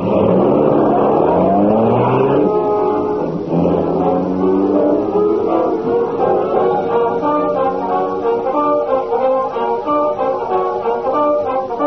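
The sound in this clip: A car driving off, its engine revving up with a rising pitch over the first couple of seconds, then settling into a loud, steady drone as it keeps going.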